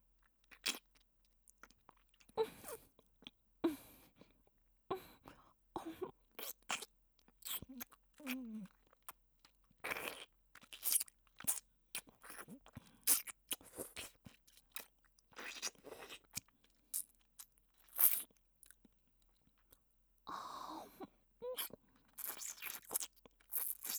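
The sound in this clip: A crunchy snack is bitten and chewed while being tasted, with many crisp crunches coming in irregular bursts and short pauses between them.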